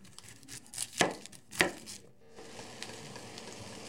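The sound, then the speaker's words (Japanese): Knife chopping onions for a mackerel curry: two loud, sharp cuts stand out among softer taps, then a steady hiss carries on to the end. “玉ねぎを切ります”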